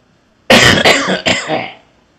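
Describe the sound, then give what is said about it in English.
A person coughs in a quick, harsh burst of three coughs that fades out at the end, with no talk around it. “Also sorry about all the coughing.”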